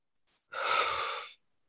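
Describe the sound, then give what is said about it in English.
A deep breath taken during a guided eyes-closed moment: a faint brief sniff, then one long, smooth breathy rush that holds steady and stops cleanly, with silence around it. “And take a deep breath.”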